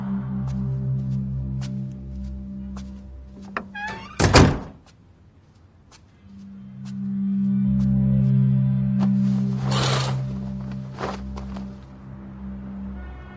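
A heavy thunk of a hospital ward door closing stands out over a steady low hum, followed by a second, shorter impact later on.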